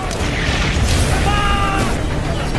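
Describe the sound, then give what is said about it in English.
Massed German artillery shells firing and exploding in an intense bombardment merge into a dense, continuous roar of rumbling booms. The low noise stays steady and loud throughout, with no separate blasts standing out. “Three and a half million German shells are fired in just 5 hours.”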